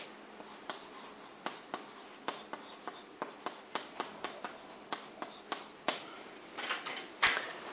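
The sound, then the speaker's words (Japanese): Writing on a board, with many sharp, scratchy strokes and taps in an irregular rhythm, some louder than others, over a low, steady background. “一行で書けるかなと思って書いてるうちに左から右に書くようになってしまって、本当はこっちから書いていかなきゃいけないんですけども”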